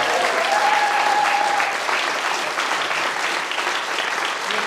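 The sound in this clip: Dense, sustained applause from an audience at a writers' gathering, many hands clapping continuously at fairly even loudness throughout, easing slightly toward the end.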